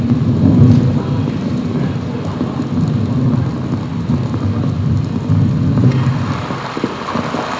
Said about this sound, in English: It's a lot of rain. We should have known. It's not in the forecast.